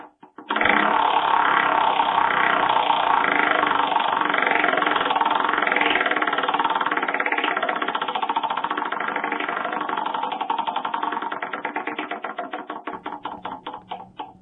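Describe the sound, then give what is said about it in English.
A prize wheel spins with a dense, rapid clatter of clicks that holds steady for several seconds, then gradually slows into separate ticks as the wheel winds down. “So, all right, spin that wonderful prize wheel.”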